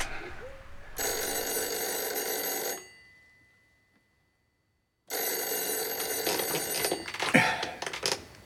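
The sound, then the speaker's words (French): A telephone bell rings loudly in two long, unbroken bursts separated by a few seconds of silence, the second ring carrying some extra clatter near its end. “Dis donc, c'est le téléphone? Oui, en effet, je crois que c'est le téléphone.”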